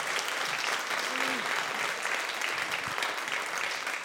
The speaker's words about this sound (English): Let's hear it for Una Chaplin, please. Una! Yay! To Una!